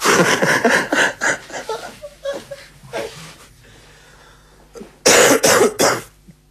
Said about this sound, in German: Ja, da fange ich gleich zum Husten an, wenn so eine dicke Luft herrscht.